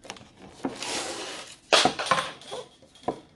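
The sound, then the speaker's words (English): A ruler clatters as it is dropped during pastry-making with a pastry brush and pins, giving several sharp knocks and rattles, the loudest about halfway through. “I dropped my ruler.”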